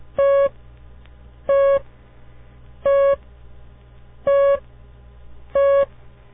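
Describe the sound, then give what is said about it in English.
Morse code letter T sent as a single long beep, repeated five times: steady mid-pitched tones evenly spaced with short gaps, over a faint low hum. “The letter was T. It's very simple, isn't it? Just one long beat.”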